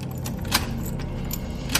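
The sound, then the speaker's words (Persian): Key turning in the lock of a closed yard door: a few sharp metallic clicks and a light jingle over a steady low hum. “در حیاطو بستم و کلید انداختم که قفلش کنم.”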